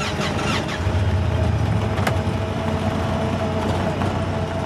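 An ATV engine drones as the vehicle drives up a hill, a steady, loud, rough mechanical noise that holds at an even level from start to finish.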